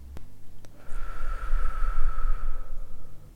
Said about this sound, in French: Prenez quelques minutes en même temps que moi et fermez les yeux. Inspirez tranquillement. Et expirez tout doucement.